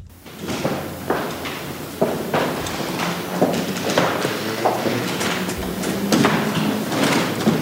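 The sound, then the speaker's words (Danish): Shoes stepping on a palace floor in Oslo as eight people move a king's coffin from the red salon to the palace chapel: many steady, shuffling footsteps in an even rhythm, with no voices. “Det her er lyden af sko. Kongelige sko, nærmere bestemt på slotsgulvet i Oslo,”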